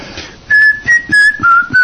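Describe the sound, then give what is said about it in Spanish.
A tune whistled with the mouth alone: a short run of five clear, sustained notes, with the fourth dipping lower in pitch. The whistling is fairly loud over a faint background. “hemos visto los niños y niñas mijes que por lo menos silban algunas canciones, algunas notas prácticamente. Claro, por ejemplo, nada más con digamos con la pura boca”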